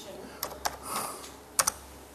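Typing on a computer keyboard: four faint, sharp key clicks in two pairs with a soft rustle between them.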